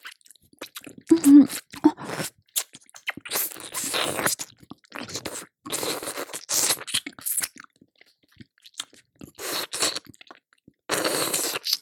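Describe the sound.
Wet mouth sounds of sucking and smacking, many short bursts separated by brief silences, at moderate volume.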